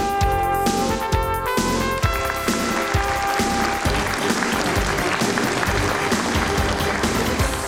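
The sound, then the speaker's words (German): Studio audience applause for a guest on a television show, many hands clapping in a dense, loud, continuous wash that lasts throughout. “Ja, das war dein Applaus”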